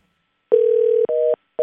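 Telephone ringing tone on a call: steady electronic beeps, first one long single-pitch tone, then shorter two-note tones separated by silent gaps, with no talk over them.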